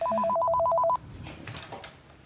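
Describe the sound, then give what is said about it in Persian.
A home telephone rings once in a loud burst of rapidly warbling electronic tones that stops abruptly after about a second, leaving quiet background noise and a few faint knocks. “بیا این تلفن رو جواب بده.”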